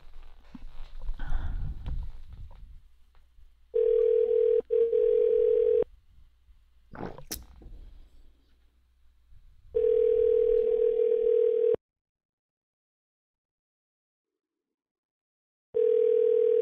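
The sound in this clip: Telephone ringback heard on an outgoing call: three steady, low buzzing tones, each about two seconds long, separated by longer silent gaps, with some noise at the start.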